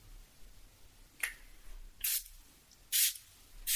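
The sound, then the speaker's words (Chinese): Hydrating facial mist sprayed from a bottle during a facial skincare routine: a few short, bright hissing bursts, each about a quarter second, separated by quiet gaps with no talk. “喷一下，这个是补水喷雾”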